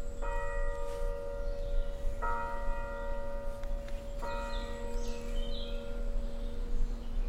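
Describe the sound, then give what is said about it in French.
A chapel bell housed in a cave high on a cliff rings over a forest, three strikes about two seconds apart, each leaving a long, steady ringing tone. “On entend la cloche de la chapelle de la Sainte-Baume qui est installée dans la grotte en haut de la falaise et qui résonne jusque dans la forêt.”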